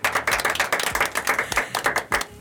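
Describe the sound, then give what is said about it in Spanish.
Many hands clap in a lively, steady round of applause as an audience applauds young people who quit smoking. The claps come dense and loud at an even pace, with no talking over them. “Le vamos a dar un aplauso a los chicos que han dejado de fumar, eso, por favor.”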